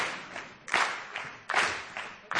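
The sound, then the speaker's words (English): Audience clapping during a dance class, arriving in four rhythmic bursts of hand claps, each sharp onset fading out, moderately loud with no talk over it. “Oh, they're going to clap.”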